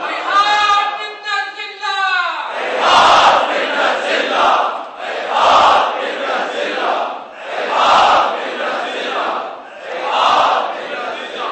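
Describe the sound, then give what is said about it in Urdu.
A crowd chants a Husseini slogan in unison. A single voice calls out first, then four loud chanted bursts follow at regular intervals with short pauses between them. “ذلت کو جھٹکنے کے لیے عزت کا نعرہ ہے, یہ سید الشہداء کا نعرہ ہے, یہاں پہ نزلہ یہ حسینی نعرہ ہے.”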